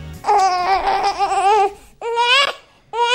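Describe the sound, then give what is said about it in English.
A baby cries, protesting against having its nappy changed, in three loud wavering wails separated by short gasping pauses; the last wail is cut off. “your baby might need to start giving you consent to change their nappy. I mean, it might sound like this.”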